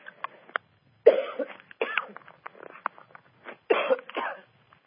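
A person with a strained throat after hours of taping shows gives a string of several short coughs and throat clears. The bursts are brief and irregular, with quiet gaps between them.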